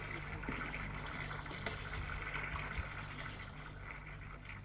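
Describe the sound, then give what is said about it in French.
Water in a bathtub, a steady, faint rushing trickle with a low hum beneath, continuous and unbroken with no voices. “Il voit que la baignoire est remplie. Il rentre dans la baignoire.”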